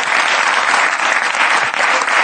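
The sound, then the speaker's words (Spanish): Audience applause from a crowd at a live event: a loud, dense clatter of many hands clapping at once, steady and unbroken from start to finish. “Un aplauso a vosotros mismos, ¡sois los mejores, joder!”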